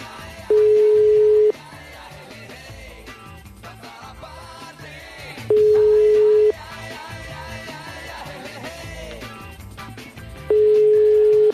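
Telephone ringing tone, three steady low-pitched beeps of about one second each, evenly spaced several seconds apart, over a constant busy background sound.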